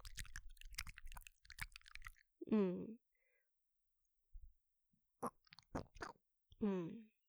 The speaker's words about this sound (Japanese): 耳の中をグッポーと舐められている音がなかなか再現できなくて、そこが苦労しました。